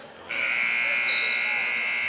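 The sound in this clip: An end-of-game buzzer sounds at a basketball game. After a brief quieter moment, a loud, harsh, steady electronic tone starts and holds without a break to the end.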